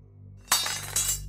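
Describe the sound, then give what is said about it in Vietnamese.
A knife dropping onto the ground: a sharp, bright metallic clatter, then a second impact about half a second later, over a low steady hum. “Tiếng cây dao rơi xuống mặt đất”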